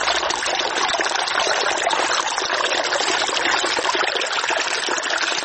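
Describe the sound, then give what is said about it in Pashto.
Small river flowing through the Sanglakh area, with cold water running past fruit trees. Steady hissing rush with an even, unbroken level and bright, bubbling texture throughout, with no voices. “د بیلابیلو سیلانیانو کوربا سنگلاغ په خپل څنګ کې یو کوچنی سیند هم لري چې سیلانیان ورڅخه زیات خوند اخلي.”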